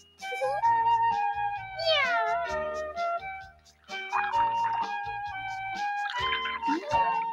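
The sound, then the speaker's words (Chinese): A black cat meows in a series of high, wavering calls that rise and fall in pitch, with light chime-like tones sounding alongside. “你屋企咧有只猫叫做露娜嘅，我希望你好好咁爱护佢啊。嗰一只黑猫咧，一定会为你带嚟幸福同埋好运噶。”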